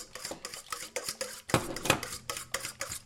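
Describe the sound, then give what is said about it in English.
Whisking two eggs with Old Bay and Worcestershire sauce produces many rapid, rhythmic metallic clinks and scrapes in a bowl. The strokes are steady and fairly quiet, with no talking. “I am just whisking 2 eggs, some Old Bay, Worcestershire sauce.”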